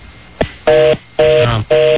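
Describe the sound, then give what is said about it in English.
A telephone ringing: a brief click, then three short electronic tone bursts spaced evenly with gaps between them. “His phone ringing?”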